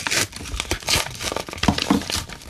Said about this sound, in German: Wir reißen sie tatsächlich auf.